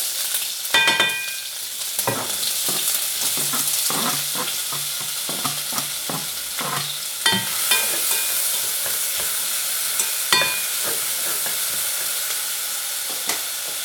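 Bacon sizzles in smoking lard in a pan while being stirred: a steady, bright frying hiss runs throughout, broken by many sharp scraping clicks and clatters from the stirring. No one speaks.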